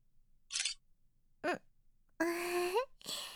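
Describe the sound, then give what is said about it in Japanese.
A camera shutter takes a photo with a short, sharp click, among a few other brief breathy and voiced sounds separated by silence. “証拠写真撮っとこう。”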